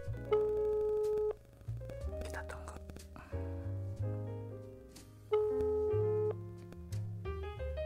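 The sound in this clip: A telephone ringing tone plays while a call is being placed. Clear sustained electronic notes form short melodic phrases, separated by brief pauses.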